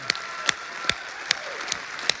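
A church audience applauding to welcome campuses during a service: dense, steady clapping at an even level, with a few sharper claps standing out at regular intervals.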